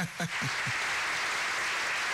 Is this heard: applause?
yes